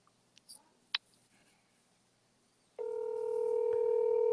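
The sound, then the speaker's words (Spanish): A telephone being dialed for a live call: a few sparse clicks and short beeps, then a steady, continuous dial tone that holds unbroken to the end, with no talking. “yo lo estoy llamando en vivo para que, para ver qué fue lo que le pasó”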